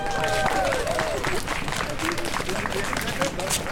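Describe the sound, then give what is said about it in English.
An audience applauds to welcome an author at a talk about her new novel in English translation, with dense, steady clapping throughout and crowd voices mixed beneath. “Please do join me in giving her a very warm welcome, Vigdis Hjorth.”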